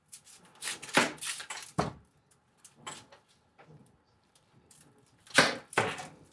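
Vegetables are sliced on a mandoline while a meal is cooked, giving a few sharp, irregularly spaced slicing strokes. A louder pair of strokes comes near the end, with quiet gaps between.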